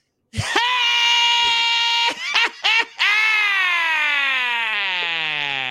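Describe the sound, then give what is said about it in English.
A man's voice imitates the scream of the character Mr. Scream: a loud, high, sustained wail, broken by a few short gaps, then held again as its pitch slowly sinks toward the end. “Yeah, I'm not as handsome as Ted McGinley, but I could do the scream.”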